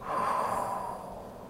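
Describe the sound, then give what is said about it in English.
A long, deep exhale during a guided relaxation exercise, pushing out all the air: one steady, breathy rush that is fairly quiet and slowly fades over about a second and a half, with no talk. “Hold it, and now exhale. Get all the air out, get every single little iota of air out.”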